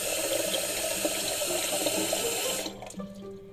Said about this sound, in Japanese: お湯が足りないかもしれないのでね少しお湯を増やしましょう